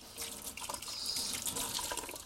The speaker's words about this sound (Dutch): Ik spoel de dop ook even af.